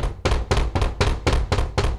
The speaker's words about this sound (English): a thumping at the door